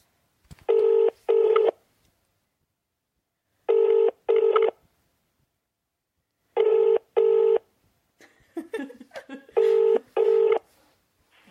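Telephone dialing tones from a call being placed: eight clear, steady-pitched beeps arranged in four pairs, with pauses between the pairs and a short, faint burst of other sound just before the last pair.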